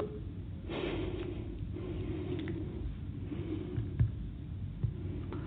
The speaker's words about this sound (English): As you could hear my breath sound in the background there, my incredulity.